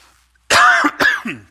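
Coughing and throat clearing from a sudden tickle in the throat: a loud, harsh cough followed by two shorter throat-clearing bursts, heard alone in quiet.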